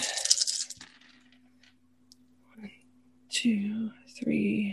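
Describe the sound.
Six dice rattle and tumble across a table during a tabletop role-playing game, giving a brief clattering burst and a few small clicks. A voice follows afterward.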